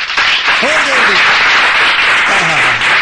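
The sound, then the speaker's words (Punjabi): Loud, dense applause from an audience opening a stage programme with artists; continuous clapping fills the whole stretch while a voice is heard faintly over it. “ਇਸ ਕਰਕੇ ਇੱਕ ਵਾਰੀ ਜ਼ੋਰਦਾਰ ਤਾੜੀਆਂ programme ਦੀ ਸ਼ੁਰੂਆਤ ਕਰਨ ਵਾਸਤੇ।”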